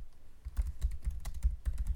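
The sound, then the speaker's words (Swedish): Many quick keystrokes on a computer keyboard as a search is typed, a rapid uneven patter of clicks that starts after a short quiet moment and runs to the end, with no voices. “Sök på Svenska kyrkan.”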